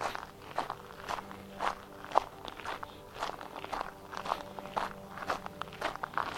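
Footsteps walking along on an evening walk, a faint, even series of many steps at a steady pace with a slight crunch, heard alone with no voices.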